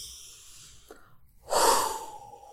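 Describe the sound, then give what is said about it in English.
A single long breath drawn in through the nose during a guided relaxation exercise: a loud, airy hiss that swells quickly and then tapers off, heard alone without talk, after a faint brief sound before it. “So I want you to breathe in through the nose,”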